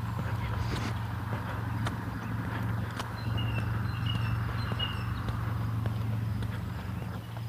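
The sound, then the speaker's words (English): A lawn irrigation sprinkler system running, with a steady hiss, a low hum and irregular light ticking clicks that continue throughout. “And it's sprinkler season, so my irrigation system is running.”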